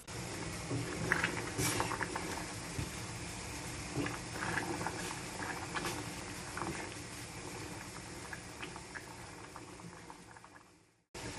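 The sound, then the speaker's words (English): Water with hartshorn bubbling steadily in a pan, a continuous busy fizz of small pops and gurgles at moderate loudness, easing slightly toward the end before a brief cut. “Yeah, it's just bubbling nicely in the pan. It's not got any higher. It's not like going to boil over or anything like that.”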